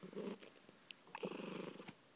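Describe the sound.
A cat purrs in a low, rough, rhythmic rumble while lying down at home. The purr runs steadily and eases briefly in the middle before swelling back.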